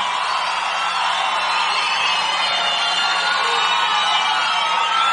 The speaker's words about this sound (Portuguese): palmas para Teodoro Sampaio.